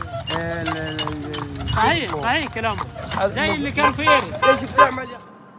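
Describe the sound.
Clip-clop of hooves from a horse-drawn cart on a road crowded with displaced people, where fuel has run out. The steady hoof rhythm runs under continuous voices talking.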